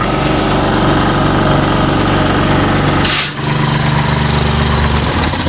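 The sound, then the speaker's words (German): A compressed air tool runs with a loud, steady mechanical drone and a buzzing low rumble throughout, dipping briefly once near the middle before continuing at full strength. “Ich werde jetzt versuchen, mit etwas Druckluft zu arbeiten.”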